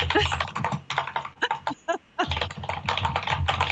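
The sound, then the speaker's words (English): Fast typing on a computer keyboard during an unmuted online meeting: a dense, rapid stream of key clicks mixed with a voice talking. “Wow, someone can type fast.”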